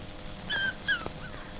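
A dog whimpers in a few short, thin, high-pitched whines, fairly quiet over a soft background hum, with no voices.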